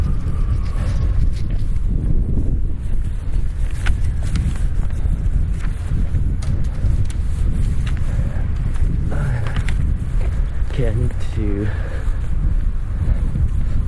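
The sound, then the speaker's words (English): Wind buffets a microphone outdoors, a constant low rumbling roar that fills the whole stretch, with a person talking on and off over it. “All this, whoops, windy. Oh, I'm so sorry about the wind.”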